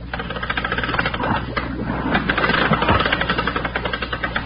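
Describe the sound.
Hand-worked air pump pushing air down to a diver, a steady, fairly loud mechanical chugging and clattering that repeats in a tight rhythmic cycle throughout.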